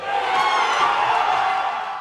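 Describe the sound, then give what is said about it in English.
Brewers baseball fans cheering during a Game 4 playoff series against the Padres, a loud, sustained roar of crowd voices and whoops with no break. “Dozens of baseball fans cheered on the crew last night in the Game 4 series against the Padres.”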